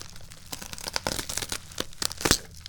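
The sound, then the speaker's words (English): A knife cuts across the top edge of a box holding tea, making quiet scraping and tearing bursts in an uneven run of several short strokes, with no voices. “I think I'm just going to knife across the top here.”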